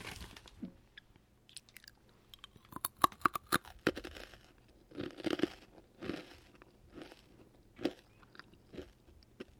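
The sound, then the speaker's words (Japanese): Rice crackers being chewed give many crisp, sharp crunches in uneven clusters, loud bites separated by quieter pauses, with no talking. “おせんべいとかそのお菓子を噛む音、うん、もう一回いきますね”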